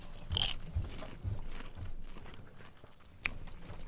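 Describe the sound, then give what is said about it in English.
Someone eats Orville Redenbacher popcorn: faint, crisp bites and crunchy chewing, with a few sharper crunches among softer mastication. “The classic Orville Redenbacher. This is the one you grew up on. It is. Okay, let's try Orville Redenbacher.”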